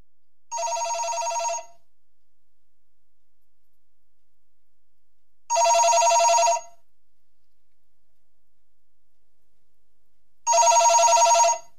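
A telephone rings for an incoming call to a radio show: three separate ring bursts, each about a second long and evenly spaced several seconds apart, with bright, buzzy tones and silence between them.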